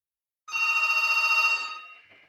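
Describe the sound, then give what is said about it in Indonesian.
A telephone rings once, a bright electronic trill that warbles rapidly for about a second and then fades. Silence comes before it. “atau juga boleh di telepon ya. Kita coba terima.”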